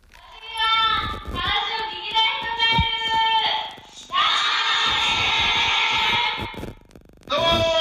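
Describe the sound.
A crowd of students at a childcare vocational school's graduation ceremony screams excitedly as a surprise guest appears. Loud, high-pitched shrieking comes in long sustained waves with brief lulls between them.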